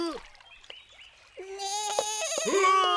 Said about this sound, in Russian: Ой, глянь-ка, коза.